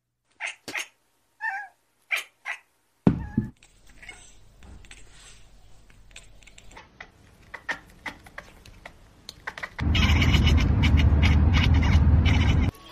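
Cat chattering like a bird call: a few quick, clicky chirps in the opening seconds, followed by quieter scattered sounds and a sustained loud noise toward the end.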